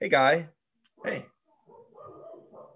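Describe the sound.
A person mimics a dog with two short, sharp bark-like yelps, then a low, rough growl that rumbles on for about a second.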